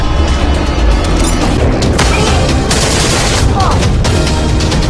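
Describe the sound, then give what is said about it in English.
A gunfire volley from a group firing on command: a dense, loud barrage of cracks and booming rumble, with several sharper shots standing out in the latter half. “Only fire on my command! You ready?”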